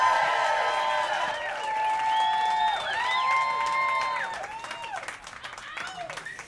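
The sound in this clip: An audience applauds and cheers with whoops and whistles to welcome a local band onto the stage at a live show. The ovation is loud and full, then thins out after about four seconds.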